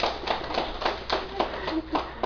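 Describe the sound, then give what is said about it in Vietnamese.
Audience clapping at a Buddhist monk's talk, with claps falling in a steady, even rhythm at a brisk pace, moderately quiet and continuous throughout. “Nhưng mà quý vị làm được, vậy quý vị có giỏi không? Giỏi chứ. Nếu giỏi thì làm sao? Vỗ tay chứ.”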